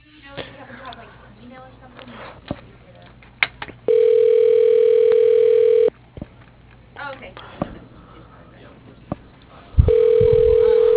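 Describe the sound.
A telephone line tone sounds while a call is placed to leave a voicemail. Two steady, sustained beeps at one constant pitch each last about two seconds, separated by a quieter stretch with soft clicks.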